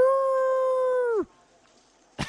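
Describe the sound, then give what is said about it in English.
A person imitates a werewolf howl with one sustained, steady, tuneful howl that drops in pitch as it cuts off, followed by near silence. “making werewolf noises to the wolf lady”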